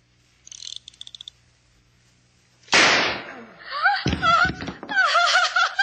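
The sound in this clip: A single loud gunshot, a man shooting himself at a dinner, cracks out sharply after a few faint clicks and decays quickly, followed by agitated voices.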